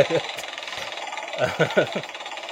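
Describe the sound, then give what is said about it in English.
A big online prize wheel being spun, as a sound effect: rapid, even rattling clicks throughout, with louder voice-like bursts over the second half. “let's give that internet wheel a spin. It's a big wheel, let's give it a big spin.”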